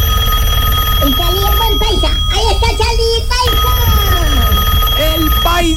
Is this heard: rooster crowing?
no

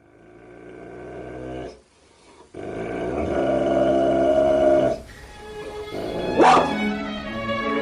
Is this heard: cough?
no

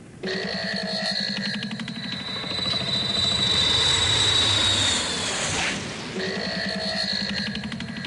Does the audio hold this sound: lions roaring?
no

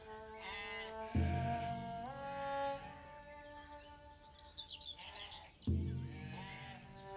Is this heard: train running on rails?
no

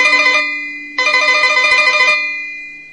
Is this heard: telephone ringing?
yes

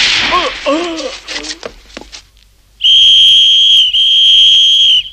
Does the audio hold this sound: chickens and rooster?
no

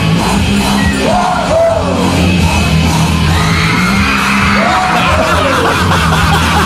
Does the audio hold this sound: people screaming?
yes

